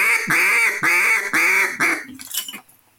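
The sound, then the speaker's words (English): A hand-blown duck call gives a run of loud, nasal quacks, about five drawn-out ones in a steady rhythm, followed by a few shorter, fainter notes that trail off. “you really don't need them to call ducks. Stick with the basics. Learn the basics. Again, the quack and the greeting call.”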